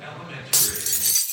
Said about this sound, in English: Oh, what the heck? Cracked windshield?